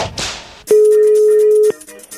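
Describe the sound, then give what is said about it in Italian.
A telephone line tone after a call drops: a single steady electronic tone sounds alone for about one second, then stops abruptly. “Ragazzi, è caduta la linea?”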